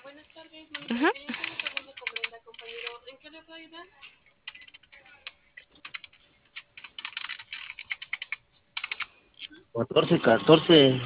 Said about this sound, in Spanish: Ahora en el teclado, 1414.